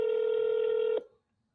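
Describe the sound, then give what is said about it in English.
A single steady telephone ring tone plays as an automated call connects, holding one even mid pitch for about a second before cutting off with a quick fade into silence. “Connecting now. Please hold during the silence after the ring. Now it's trying to get a hold of the rep.”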